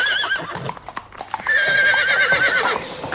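A horse in a racing stable whinnies twice with long, wavering neighs. Between the calls come clattering hoof steps and knocking thuds on a hard floor.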